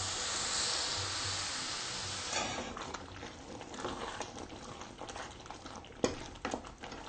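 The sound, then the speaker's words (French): A salted sauce is stirred as it cooks, giving a faint, steady simmering hiss with scattered soft scraping taps and one sharper clack near the end. “Il faut ajouter encore un peu de sel. Voilà, maintenant on va mélanger.”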